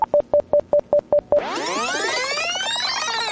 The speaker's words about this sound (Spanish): Póngale, pero póngale ahí llamar, ponga llamada. A ver, llamar.